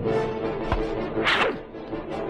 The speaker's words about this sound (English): That tall stone pillar, it's already cracked and rutted with age. And the blow that creature's tentacle just dealt it has not improved its condition.